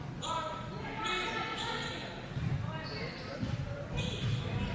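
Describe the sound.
A basketball dribbled with the right hand during a game, heard as a few soft, low bounces beneath steady commentary.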